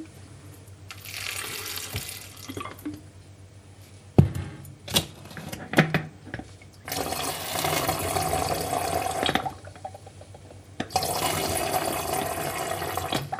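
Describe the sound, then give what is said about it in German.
Lemon juice mixture is poured from one container into two bottles, splitting about two tablespoons between them. Splashing liquid comes in a few bursts, with light clinks and knocks of glass between the pours. “hast du ja vorher schon so schön spritzig gemacht mit dem Zitronensaft. Davon hätten wir jetzt gern insgesamt gute 2 Esslöffel, die wir auf die beiden Flaschen verteilen.”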